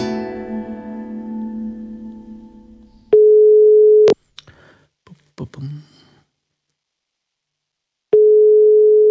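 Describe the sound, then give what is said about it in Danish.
Danish ringback tone of an outgoing phone call: a steady mid-pitched tone in one-second bursts spaced about four seconds apart, two bursts heard, with faint clicks in the quiet gap between them. “Jeg havde fået lov til at ringe til Danmarks vel nok bedste sociolog, Pia Heike Johansen.”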